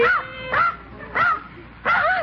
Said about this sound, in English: a dog. I'm still asleep. I just opened the back door and in he flew.